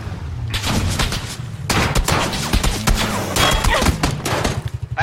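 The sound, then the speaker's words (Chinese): M16 rifle shots crack in a video game, with many sharp reports in rapid, dense bursts. The gunfire continues with little pause and stays loud throughout. “这 M16 一枪把我就爆头了”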